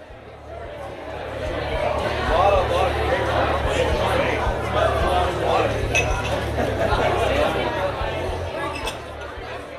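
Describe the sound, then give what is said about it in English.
Bar ambience: glasses and cutlery clink again and again over a continuous murmur of crowd chatter, holding a fairly even, busy level throughout. “The superfluous noise of the bar returned to my ears.”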